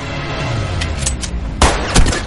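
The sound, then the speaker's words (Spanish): Gunfire in the 2016 war film Operation Chromite: fainter bursts are followed by two loud, sharp shots near the end, all over a dense, rumbling action background. “Jan dispara. Las balas impactan en el cuerpo de Lim, que cae al suelo boca abajo.”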